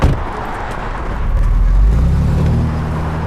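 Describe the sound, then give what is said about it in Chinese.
A car drives away, its engine giving a dense low rumble that swells briefly in the middle and then settles to a steady whir, with no voices over it. “胡建仁开车走了，我们跟上。”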